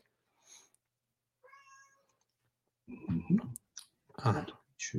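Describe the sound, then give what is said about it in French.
A domestic cat meows at a window, wanting to go out while it rains: a few thin, high, tonal meows, then louder, rougher vocal sounds toward the end. “je suis désolé hein, pour le chat qu'on entend. C'est un chat qui décide de vouloir sortir quand il pleut”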